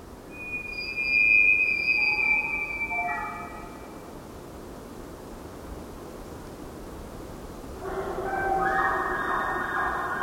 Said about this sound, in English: When you hear an elk call from miles away, it turns into a magic flute as the result of traveling through this place that has the same acoustics as a cathedral.